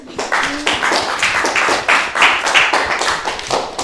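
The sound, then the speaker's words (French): People applaud together, a dense, loud patter of hand claps that holds steady without pause for several seconds. “Et on l'applaudit, hein.”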